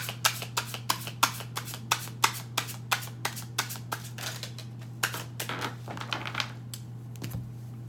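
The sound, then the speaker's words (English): Tarot cards being shuffled by hand: many crisp riffling snaps in an even rhythm over a low steady hum, with a brief pause midway and a final flurry near the end. “Let me show you the cards. Let me finish the shuffle.”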